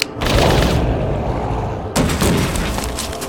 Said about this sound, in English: The snapping reports of the shots brought Kane